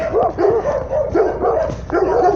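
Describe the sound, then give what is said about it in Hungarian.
A small dog barks in a rapid, continuous series of high-pitched yapping barks, loud and close together with little pause between them. “Kutya! Kicsi kutya!”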